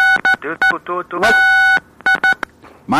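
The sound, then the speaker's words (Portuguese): Telephone keypad tones beep during a phone call. Several short dual-tone beeps and one longer beep cut in and out between voices that are talking over the line. “Acho que você tá pressionando algum botão do telefone.”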